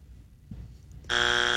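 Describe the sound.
A wrong-answer buzzer sounds once: a harsh, loud, sustained rasping tone that starts abruptly after a stretch of faint low rumble and runs to the end.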